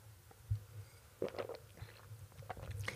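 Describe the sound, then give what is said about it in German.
Faint, soft mouth and swallowing noises as someone takes a sip of a drink. There are a few quiet wet clicks and gulps spread across a short pause, with no talk. “Ich muss mal einen Schluck trinken.”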